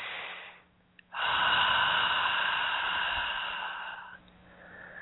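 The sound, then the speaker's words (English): A long, deep breath taken slowly, a steady airy hiss that follows a brief quiet moment, holds evenly for about three seconds and then drops away. “Nice deep breath.”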